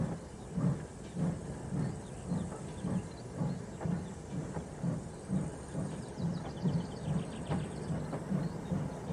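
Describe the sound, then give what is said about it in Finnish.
Steam puffing from a small locomotive as it begins pulling a train away from a station platform: steady, rhythmic low chuffs repeating many times, each with a breathy hiss, at an even, moderately loud level. “Ja siitä pikkuveturi tietää, että nyt voi lähteä liikkeelle. Innokkaana veturimme alkaa puhkoen vetää junaa.”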